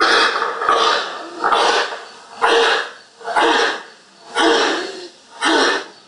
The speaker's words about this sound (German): Sie hören nun noch einmal Husten Nummer 2, der Mykoplasmen bedingt, üblicherweise ab der 13. Lebenswoche auftreten kann.